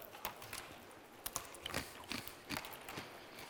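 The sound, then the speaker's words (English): Matzah being broken off and chewed: faint, crisp crunches and bites in an uneven series of short bursts, with quiet pauses between. “Take just a tiny little bit of that and just break it off and just take a little taste.”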